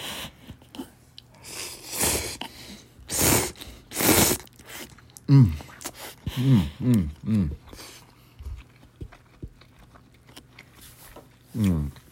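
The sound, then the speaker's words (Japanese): Shrimp-flavoured cup noodles being eaten: a few loud, broad slurping bursts, then a run of short, voiced, mouth-closed sounds as the food is chewed. Talk comes before the eating. “いや、咀嚼音がしますけど、いただきます。”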